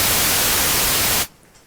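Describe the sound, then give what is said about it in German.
Loud, steady white noise from a noise generator: a dense, even hiss across the whole range that holds constant for just over a second, then cuts off abruptly into near silence. “dann nehme ich mal den Rauschgenerator. Achtung, das ist jetzt weißes Rauschen.”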